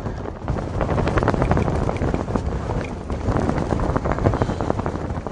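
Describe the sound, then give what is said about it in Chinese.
Wind blows across open green grassland, a loud, continuous, roaring rush of air that swells and eases in gusts, with no voices. “感受到嘅就系呢一啲风声啦”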